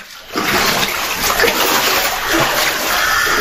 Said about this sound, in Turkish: Merkeze bağlı Mezra köyünde meydana gelen taşkın sonrası ev ve ahırları su bastı.